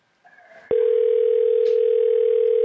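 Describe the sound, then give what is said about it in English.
A steady telephone line tone on a call to a Walgreens store after its hold limit runs out. A few faint short tones come first, then one loud constant pitch holds unbroken to the end, with no voices. “They have a hold limit and it starts ringing again.”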